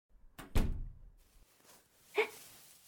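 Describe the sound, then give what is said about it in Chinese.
A door is pushed shut with a low double thump, followed about a second and a half later by a short latch click. Faint overall, with quiet between the sounds. “还不快让我进屋，把门关上。”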